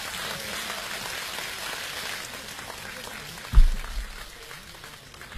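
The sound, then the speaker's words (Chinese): Warm audience applause welcoming a guest onstage at a comedy and performance event, a dense, even wash of clapping with one brief thump partway through. “下面以热烈的掌声有请二大爷 来，在这儿呢。 二大爷， 掌声欢迎 二大爷。”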